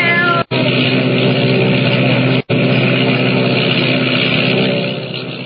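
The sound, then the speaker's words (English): A giant seaplane's motors roar as it skims across the water and takes off, a dense, steady, loud drone with tonal hum lines, broken by two very short dropouts and easing slightly toward the end. “Motors roaring, the giant seaplane skims across the water and rises into the dark, foreboding sky, carrying Jimmy”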